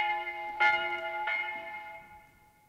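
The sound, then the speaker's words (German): A church bell strikes twice in quick succession. Each strike leaves a bright, sustained ringing tone with clear overtones that slowly fades away. “Haltet an jetzt die Glocke! Zu des Teufels Morgen läutend!”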